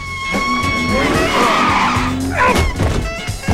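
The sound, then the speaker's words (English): Tires skid and squeal as a car brakes hard in slowed city traffic: a long, loud, high screech over engine noise, followed by a shorter squeal and rough scraping toward the end. “She stamps on her brakes and the man hits his head on the dividing glass.”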